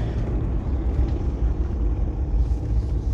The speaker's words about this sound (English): Now even second gear sounds kind of weird too.